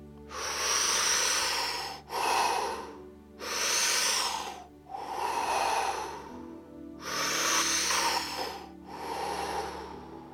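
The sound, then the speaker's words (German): Slow, deep breathing during a guided belly-breathing relaxation exercise: a long series of airy inhales and exhales, each a soft breathy rush with short pauses between, steady and fairly loud with no talk. “ein paar tiefe Atemzüge zu machen”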